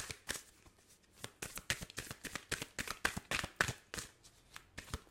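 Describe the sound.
A deck of healing mantra cards being shuffled, with many crisp riffling and tapping bursts in an uneven rhythm. The shuffling is fairly soft and runs alone, with no talk.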